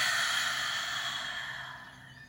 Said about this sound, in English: Let's take a nice deep breath in. And release it.